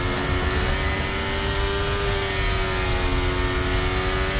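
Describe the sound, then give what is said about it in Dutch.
A Ferrari Formula 1 car engine revs on a racetrack, a dense, continuous high-pitched roar with a strong whining tone that stays nearly level throughout, with no talk over it. “Onder het geluid komt van Lewis Hamilton in de Ferrari.”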